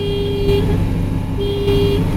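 Two car horn honks, a short blast and then a longer one, sound over steady engine and road rumble as the car pulls over with smoke and a possible puncture.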